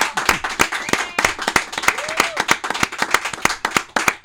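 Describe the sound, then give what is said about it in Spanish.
Applause from a small group: many crisp, sharp hand claps rattle on steadily with an uneven rhythm, fairly loud throughout. “Con un fuerte aplauso para que siga teniendo esa energía.”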